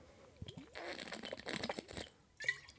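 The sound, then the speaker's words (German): Someone takes a sip of a drink: a quiet, brief noisy slurp lasting about a second, with faint mouth and throat sounds before and after. “Ich trinke jetzt einen Schluck.”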